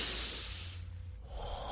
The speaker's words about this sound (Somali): Ma doonaysaa inaad isku dayda inaad neef dheer qaadataan? Haye bilaaba.